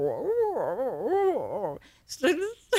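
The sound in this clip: A person imitates a dog's quiet whining 'inside voice', a pet dog's sound in place of barking: wavering, rising and falling whiny tones for nearly two seconds, followed by short vocal bursts.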